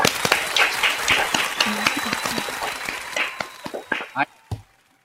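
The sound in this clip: Audience applause welcomes a guest onto the Chief Chat stage: dense, steady clapping mixed with voices that thins out toward the end, closing with a few louder separate claps before it falls quiet.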